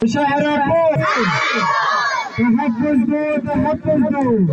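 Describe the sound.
A crowd of protesters chants slogans, many voices shouting loudly together in rhythmic bursts. Partway through, a higher, shrill chorus of cries rises above the chanting.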